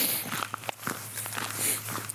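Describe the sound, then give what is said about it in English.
Footsteps of a person walking between prayer stations during a retreat: a few soft, irregularly spaced steps over a steady low hum, with no talking. “So now we walk to the second station.”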